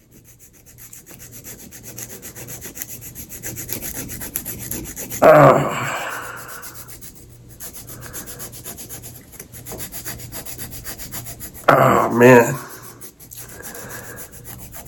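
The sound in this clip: Rough, sandpaper-like rubbing smooths bunions on a foot, a steady low scraping with two louder, brief grating bursts; a man speaks briefly.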